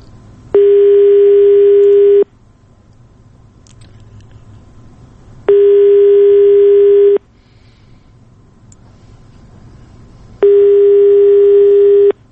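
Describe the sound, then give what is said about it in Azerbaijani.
Ringback on a telephone line while a call is being placed: three loud, steady mid-pitched tones, each about a second and a half long, separated by roughly three-second gaps of low line hiss. “Biz hələ də telefon xəttindəyik və gözləyirik ki, Fuad Muradovla əlaqə yarada biləcəyik.”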